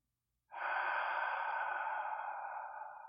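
A long, steady nasal inhale through the left nostril while the other nostril is pressed shut: a single breathy hiss that starts abruptly and holds to the end, easing slightly.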